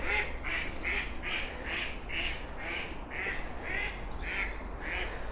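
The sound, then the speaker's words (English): Female ducks quacking on a canal at dawn in spring in the Brecon Beacons, giving a long, evenly spaced series of loud, nasal quacks while a thin, high bird call slides downward above them. “it's the females who, the males are silent, it's the females that make the quack, quack, quack.”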